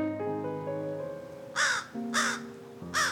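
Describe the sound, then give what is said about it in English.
Crows cawing outside a library: three harsh, raspy caws in separate loud bursts, coming after a stretch of sustained steady tones. “Are the crows, like, breaking rules about staying quiet in the library? Technically, they're outside the library”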